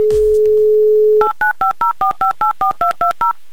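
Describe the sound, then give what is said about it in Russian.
A telephone number is dialed for a call to Yekaterinburg: a steady dial tone, then eleven evenly spaced touch-tone beeps in a quick, regular rhythm. “Итак, еще раз набираю номер Алисы.”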